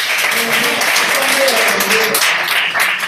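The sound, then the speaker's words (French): A church audience applauds during a morning worship service, with busy, continuous clapping mixed with raised voices that carry over the claps throughout. “On va se tenir debout. Le Seigneur est grand. Oui. Et nous allons l'acclamer ce matin.”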